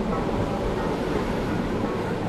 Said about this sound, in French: Nous retrouvons au moment où un métro entre en gare d'Aubert, Opéra, Havre, Caumartin.